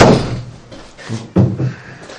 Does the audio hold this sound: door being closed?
yes